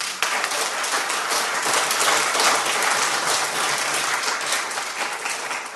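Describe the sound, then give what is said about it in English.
Audience applause for a poet at the London Buddhist Centre, dense and steady clapping that holds at an even level throughout, with a slight swell midway and no voices. “Big hand, please.”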